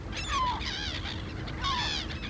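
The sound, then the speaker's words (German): A pet parrot gives two squawking calls, each a nasal, harmonic honk, separated by a short pause and fairly faint, with no talking. “Kay ist doch ein Papagei. Yes, Kay is a parrot. And Kay does what birds do.”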